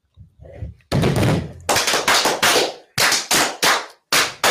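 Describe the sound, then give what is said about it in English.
A gunfire sound effect of a volley of guns firing: many sharp, loud bangs in quick succession, each with a short decaying tail, after a softer lead-in. “So, brothers, right hand to arms. To arms. Ready. Ready. Aim. Fire. Good fire. Fire all.”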